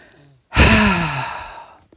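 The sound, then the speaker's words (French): A single gentle exhale with a guttural rasp during a breathing exercise. It starts abruptly and loudly after a brief quiet, then tapers off over about a second and a half. “et souffle doucement en émettant un râle guttural.”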